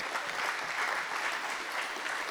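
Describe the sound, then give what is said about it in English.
Congregation applauding at a church service as a hand clap of praise, a steady dense wash of many clapping hands that stays even and fairly soft throughout. “we can give the Lord a hand clap of praise”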